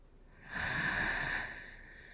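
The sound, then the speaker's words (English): A single deep inhale during a guided breathing exercise, a soft rushing breath that swells for about a second and then fades. It is heard alone, with no talk over it. “Like that. Breathe in.”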